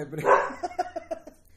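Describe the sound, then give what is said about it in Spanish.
A small female French bulldog barks: one loud, strained yelp, then a quick run of short, sharp barks that grow fainter. “Acá tenemos a mi perrita. Están en desacuerdo.”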